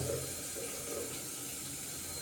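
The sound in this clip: Water running while washing at a sink, a steady, faint hiss of flowing water that stays even throughout.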